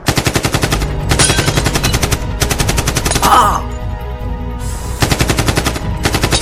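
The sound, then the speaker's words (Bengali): Machine-gun fire erupts in a Bengali drama, with loud, rapid bursts of shots that pause briefly and then resume. “গুলি চলছে গুলি শুয়ে পড়ো সব ভাই”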